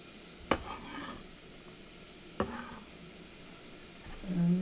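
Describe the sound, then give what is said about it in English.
Diced onions hit hot oil in a heavy-bottomed pot, giving two sharp clattering bursts over a steady, hissing sizzle that continues throughout. “So there's some oil in there. And now carry on and get the onions into the pot. Perfectly diced onions.”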